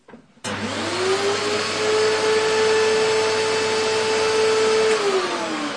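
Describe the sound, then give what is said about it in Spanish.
A household vacuum cleaner switches on abruptly, its motor whine climbing quickly in pitch before settling into a loud, steady roar. The tone dips slightly just before the end. “Pero su mamá estaba usando la aspiradora.”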